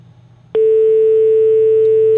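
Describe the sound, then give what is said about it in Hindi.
A steady electronic telephone tone cuts in abruptly after a brief low hum and holds at a single constant pitch to the end, marking a call dropped by a technical fault. “अफसोस है जी कि तकनीकी खराबी कारण call disconnect हो गई।”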